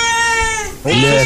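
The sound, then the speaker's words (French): A small cat gives two drawn-out meows back to back. The first is a steady, high, tonal cry. The second is lower, louder and wavering. “c'est un petit minou qui miaule. Oh. Ça, c'est un vrai bruit de chat, pareil.”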